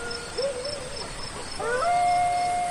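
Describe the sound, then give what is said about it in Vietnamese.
Dogs across a village howl at night in long, wavering tones. Overlapping howls join in partway through and swell louder toward the end, with no talk over them. “Đêm ấy chó của cả làng cứ chu lên một hồi mãi không thôi.”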